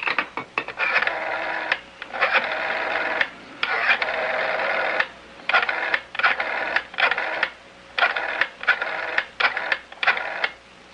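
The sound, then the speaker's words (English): A telephone being dialed to a toll-free number: many short clicking mechanical bursts in uneven groups with brief pauses between them, fairly loud and without voices. “Why don't you go ahead and dial?”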